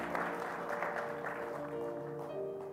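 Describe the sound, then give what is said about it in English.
A church gathering applauds to welcome Commission Church, with faint, steady clapping throughout. “My buddy Pastor David Sylvie from Commission Church is here. And Commission Church is here. Give it up for them.”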